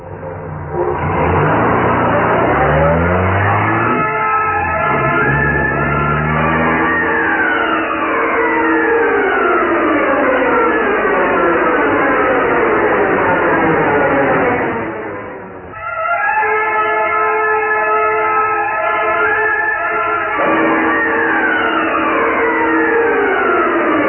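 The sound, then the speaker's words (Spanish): A sports car speeding along a dusty road, its engine revving in repeated rising sweeps as it accelerates. The loud roar dips briefly around the middle, then climbs again and keeps running to the end. “El auto Sport avanzaba vertiginosamente por el polvoso camino que conducía a New Forlín.”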